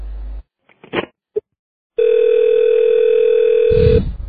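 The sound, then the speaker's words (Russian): A telephone dial tone sounds after the other party hangs up. A few short clicks and handset noises come first, then a loud, steady, unbroken tone holds for about two seconds and cuts off. “зачем вы трубку бросаете? Я к вам по-серьезному звоню, а вы трубку бросаете.”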